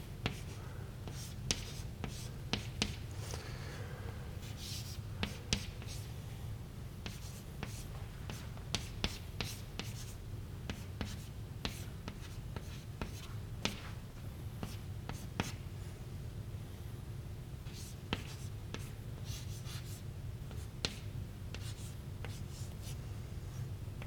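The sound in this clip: Handwriting as an equation is written out: faint pen scratches and many short strokes and taps, steady and unbroken throughout, with no other sound.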